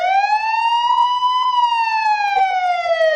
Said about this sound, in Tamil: இந்த மாதிரி சைரன் சத்தம் கேட்டா என்ன பண்ணுவீங்க?